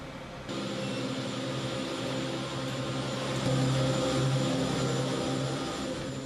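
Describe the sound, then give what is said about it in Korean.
Steady mechanical droning of a cable car ascending Ba Na mountain near Da Nang, a continuous whirring hum with low tonal layers that starts abruptly, swells slightly midway and carries on without voices. “케이블카를 타고 7분 동안 올라갑니다. 땅에서 멀어질수록 새로운 세상이 펼쳐집니다.”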